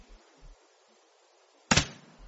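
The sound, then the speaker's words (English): A front door swings shut with a single dull thump, preceded by a few faint low knocks in an otherwise quiet stretch. “That's the front door. Mm-hmm. What? The front door's just closed. And I suppose someone's just come in or gone out.”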